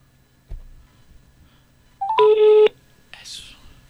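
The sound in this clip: A phone being dialed to call a contest winner: a few faint blips lead into one short, steady electronic tone, followed by a brief breathy hiss.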